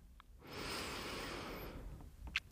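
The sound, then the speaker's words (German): A deep breath drawn in through the nose and let out through the mouth: one long, steady, breathy rush, fairly loud and heard alone without any talk. “atmest tief durch die Nase ein. Und wenn du möchtest, durch den Mund wieder aus.”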